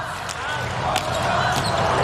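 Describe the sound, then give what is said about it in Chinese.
A volleyball serve during a match sends the ball off with a sharp slap. The brief impacts stand out over a loud, steady background din that runs through the whole moment. “塞米克的发球”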